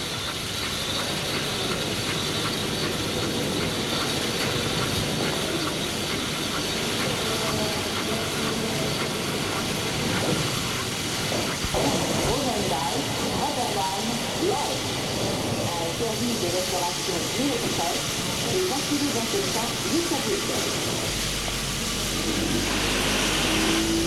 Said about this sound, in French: Le train s'est arrêté en gare.